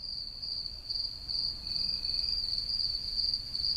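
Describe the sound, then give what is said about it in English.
Crickets singing in a chorus on a warm summer night, a steady, high-pitched, pulsing trill that continues without a break, fairly faint and with no voices. “Imagine a warm summer night. You're out walking with friends or family, and you're listening to the chorus of crickets singing.”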